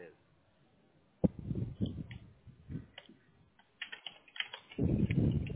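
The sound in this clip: Computer keyboard typing while logging in to a page: a quiet, uneven patter of key clicks alongside talk.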